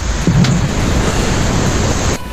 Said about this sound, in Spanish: Aquí en Mota del Cuervo, como podéis comprobar, tronando y enganchándose a llover